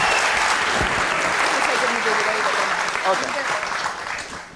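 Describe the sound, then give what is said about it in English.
An audience claps steadily at a live show in Edinburgh while a voice speaks over the applause, which slowly fades toward the end. “And on that bombshell, will you please give it up? Incredible. Once again, Jack Lowden, everybody.”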